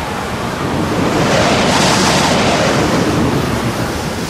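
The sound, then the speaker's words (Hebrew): Strong wind rushes over the sea as a loud, broad roar, like surf or wind noise. It swells slightly partway through and then holds steady, with no voices. “רוח אדירה החלה לנשוב.”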